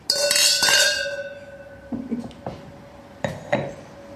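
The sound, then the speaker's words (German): Red wine glasses clinking in a toast: an opening cluster of bright clinks with a sustained glassy ring, then a few more separate chinks, each decaying quickly. “Lass uns anstoßen.”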